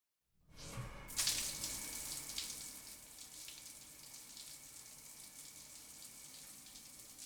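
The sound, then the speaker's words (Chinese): Cold running water rinses in a bathroom: a steady hissing stream starts abruptly, gushes loudest for a moment, then settles into a constant, even splash. “还是用冷水冲洗一下吧，让自己冷静冷静”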